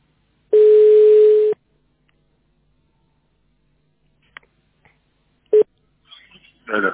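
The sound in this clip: Telephone line tones on a landline call. One steady, loud, mid-pitched tone lasts about a second, then faint clicks follow, then a second brief tone and a short burst of noise.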